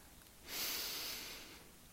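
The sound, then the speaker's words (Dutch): A slow breath in during a guided breathing exercise, a soft airy inhale lasting about a second, faint and alone. “We doen het nog een keer. Adem in.”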